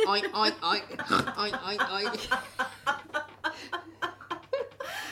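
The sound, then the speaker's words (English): A mother's voice imitates the oinks of a small pig-shaped fridge gadget, a string of many short, nasal, grunting bursts in a steady rhythm with a laughing, chortling edge. “have you seen those little things, those pig things you could put in the fridge? No. Every time you eat it, it goes,”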